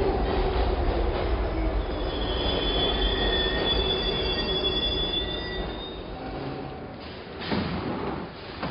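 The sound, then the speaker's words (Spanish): A metro train at an underground platform gives a steady, loud rumble with thin, high wheel squeals ringing over it. The noise eases off toward the end, then swells briefly again. “Camina por el andén del metro.”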